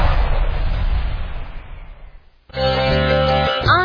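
Firecrackers blast in a Diwali firecracker shop advert: one loud, broad explosive boom that rumbles and slowly fades, then music starts abruptly after a brief dip.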